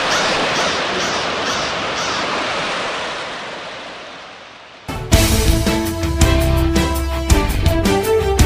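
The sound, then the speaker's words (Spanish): Sea waves roar in a dense, steady wash of surf that slowly fades over several seconds before music abruptly takes over. “El sonido azul del mar.”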